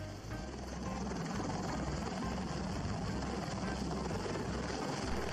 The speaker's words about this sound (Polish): A zaczniemy sobie od potężnego Bella Boeinga V-22, który totalnie niszczy szpitalne lądowisko, nieprzystosowane do obsługi takiego kolosa.